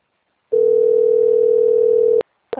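A steady telephone dial tone sounds while a call is placed, holding for under two seconds before a click cuts it off. A second short click follows.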